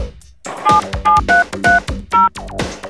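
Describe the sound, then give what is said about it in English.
Touch-tone keypad beeps as a voicemail password is dialed: a quick, evenly spaced run of short, loud dual-tone beeps with brief gaps between them and no talk. “Please dial your password and press pound.”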